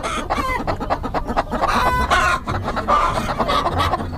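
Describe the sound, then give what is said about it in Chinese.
Many black-boned chickens cluck and squawk inside a crowded coop at night as they are caught. The calls overlap in a dense, busy, continuous clamor. “抓鸡是吗？ 是是是。 就是为什么非得在晚上，而且在鸡舍里面抓呀？”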